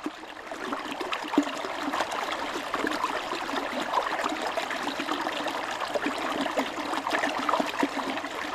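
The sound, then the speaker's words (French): A small tributary stream of the Allier river, in Haute-Loire, flows steadily with a continuous soft rush of water, with gentle trickling and bubbling detail, fairly faint and unbroken for the whole stretch, with no voices. “Ce que vous entendez là, c'est la musique aquatique d'un petit affluent de la rivière l'Allier, qui est lui-même un affluent de la Loire.”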